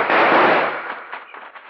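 Gunfire from a driver shooting during a holdup: one loud, noisy blast that decays over about a second and a half, with faint crackling in its tail and no voices.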